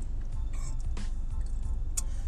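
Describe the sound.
Steady low rumble of a car being driven in traffic, hemmed in by other vehicles, a continuous engine and road drone with a few faint higher noises over it.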